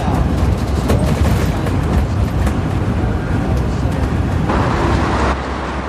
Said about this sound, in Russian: Автобус останавливается на улице небольшого города.